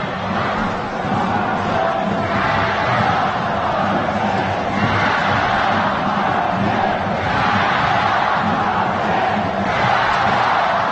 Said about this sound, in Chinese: 现场的球迷的加油声此起彼伏。